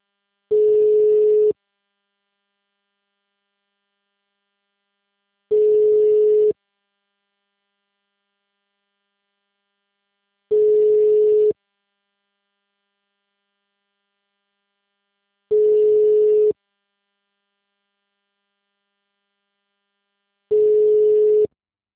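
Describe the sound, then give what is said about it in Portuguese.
Ringback tone on an outgoing phone call: five identical one-second beeps at a single steady mid pitch, evenly spaced about five seconds apart with silence between them. “Demorou, mas começou a chamar. Vou tentar fazer por aqui.”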